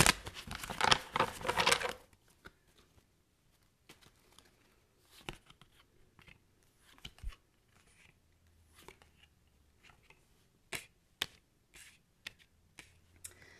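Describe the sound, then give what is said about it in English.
Tarot cards shuffled and pulled for a collective reading: a brief dense riffle of rustling at the start, then scattered soft taps and flicks as cards are laid out. “Okay, so I'm going to pull cards for the collective.”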